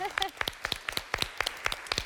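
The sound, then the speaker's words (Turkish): Many sharp claps from a game-show studio audience, struck in a steady rhythm of loosely paired beats at a moderate level. “Alkışlıyoruz ama böyle bir çak yapalım mı?”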